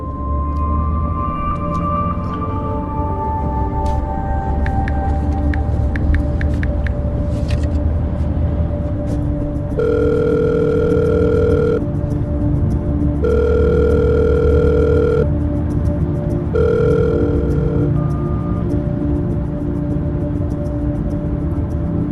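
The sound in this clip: Ringback tone on a telephone call being placed again: three long, steady tones start partway through and sound over a constant low, loud rumble that runs the whole length.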